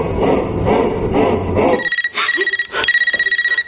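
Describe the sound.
A mobile phone rings in a 2011 thriller drama. The ring is a loud electronic tone in rapid pulses that begins midway, after a stretch of dense, busy background sound, and keeps buzzing to the end.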